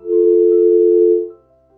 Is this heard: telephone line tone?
yes